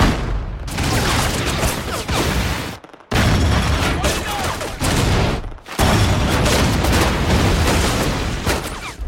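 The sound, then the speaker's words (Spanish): Gunfire rattles through a battle scene in the film Letters from Iwo Jima: dense, loud bursts fill three long blocks, each broken off by a brief silence. “¡Abran fuego! ¡Abran fuego! ¡Fuego!”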